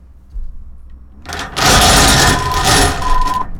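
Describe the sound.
A bell rings loudly to claim a win at a bingo game. It starts with a faint rattle and then rings in one sustained, bright, clanging burst for about two seconds before it stops.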